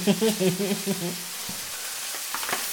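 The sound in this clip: Tomatoes sizzle and fry in a pan while gnocchi with rucola and mushrooms is cooked. A steady, hissing crackle runs throughout at a moderate level, with a few sharper pops and low tonal sounds near the start.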